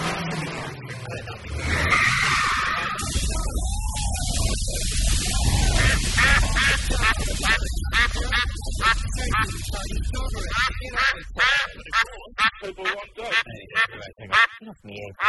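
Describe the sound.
A duck quacks again and again amid people talking and busy background noise.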